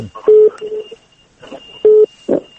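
Telephone line tones as a call connects to a radio call-in show: two loud, clipped beeps among softer muffled line noise, with a faint steady high whine running underneath.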